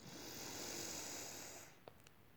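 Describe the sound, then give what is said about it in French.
A person breathes in slowly during a guided breathing exercise, making a soft, airy, continuous hiss that holds steady for well over a second and then stops. A faint click follows. The sound is quiet and alone. “Respiration spontanée. Et encore une fois, inspiration.”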